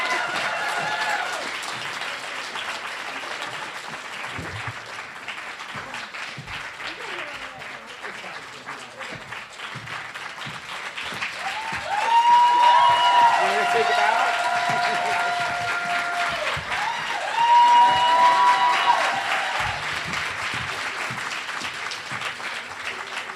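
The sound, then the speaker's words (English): Sustained audience applause at a library conversation event on a February night: dense, steady clapping from a large crowd that swells louder around the middle and again near the end before easing off. “You don't have to keep applauding.”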